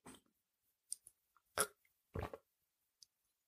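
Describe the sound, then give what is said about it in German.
Sipping a drink to clear something caught in the throat: a few short, quiet gulps and wet mouth noises separated by brief pauses, with no talking. “Ich muss mal eben einen Schluck trinken, ich habe irgendwas im Hals.”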